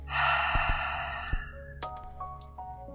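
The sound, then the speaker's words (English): A deep inhale drawn in through the nose during a breathing exercise: a long, airy rush lasting about a second and a half that gradually thins out, followed by a few soft, scattered knocks. “Make your breaths bigger. Let's inhale through the nose.”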